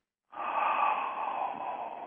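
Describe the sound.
A voice imitates breathing with one long, steady, breathy exhale that starts abruptly and holds at an even level, with no other sounds.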